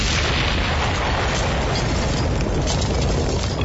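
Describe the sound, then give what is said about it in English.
An explosion sounds as a loud, dense roar that holds steady through the whole stretch, with no pauses and heavy low rumble beneath a wide hiss. “there was an explosion of some sort and glass breaking all over the place.”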